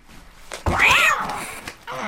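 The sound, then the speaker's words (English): A cat meows sadly in one drawn-out, whiny meow that rises and then falls in pitch. A shorter, fainter mew follows at the end. “The dog finds the cat sitting sadly on a log.”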